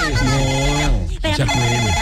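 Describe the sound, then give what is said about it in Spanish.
A phone rings with an incoming call, a melodic ringtone of sustained, sliding tones that plays loudly and briefly dips near the middle before continuing. “Me está entrando una llamada. Dame un segundito, a ver.”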